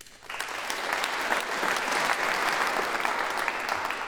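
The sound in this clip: Audience applause welcoming guests to a literary talk about Byron's poetry: clapping swells in quickly and then holds as a steady, even wash of many hands for several seconds.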